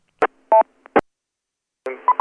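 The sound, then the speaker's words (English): Electronic beeping from a device acting up, a few short tonal beeps in an irregular rhythm, then a harsher buzzing burst with more beeps near the end. “Oh, my God, the thing's happening again. It's beeping.”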